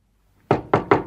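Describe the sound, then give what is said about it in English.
Three knocks on a door, sharp and evenly spaced, coming quickly one after another after a short silence. “One day, using all my courage, I knocked at the door.”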